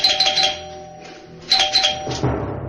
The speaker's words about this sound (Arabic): وبينما كان يتساومان رن جرس الباب.